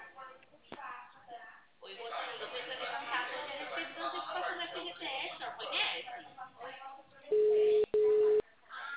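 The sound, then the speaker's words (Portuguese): Dial tone after a dropped phone call: a steady, low-pitched telephone tone comes in two short stretches split by a brief gap, following muffled, band-limited talk over the line. “acabou caindo a linha. É, caiu.”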